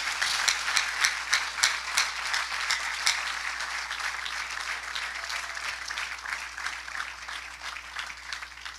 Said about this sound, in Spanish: Si es para Dios, déle ese aplauso, por favor.